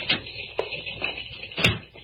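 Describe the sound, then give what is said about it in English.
A door is closed in an office, with a few soft knocks and thumps and a heavier bang near the end, over a faint background hiss. “Close the door, Sammy. From the other side, Sammy.”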